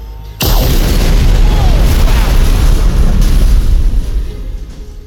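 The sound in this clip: A powerful blast breaking through a steel barrier bursts in suddenly and loudly, then holds as a dense roaring rumble for about four seconds before easing off.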